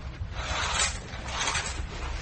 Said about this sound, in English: I'll draw these curtains back.